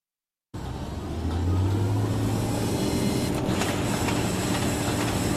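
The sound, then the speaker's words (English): An oil rig operating in the North Dakota oil fields sets up a loud, continuous mechanical drone with a low steady hum, starting abruptly after a moment of silence. “the sound of an oil rig in North Dakota right there in the oil fields”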